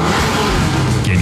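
A car engine revving at a summer car meet, a loud, sustained roar over a low rumble with a brief whoosh near the end.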